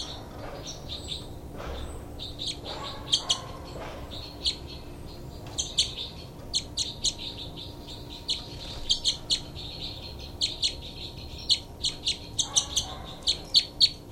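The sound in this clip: Birds chirping in many short, high, bright calls that come in quick bursts and grow more frequent toward the end, over a faint steady low hum.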